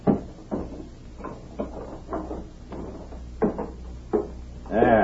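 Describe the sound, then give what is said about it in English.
A safe door being closed and locked: a series of dull knocks and clunks at uneven intervals, ending in a longer rattling burst. “I'll put it away for you now. Safe's open.”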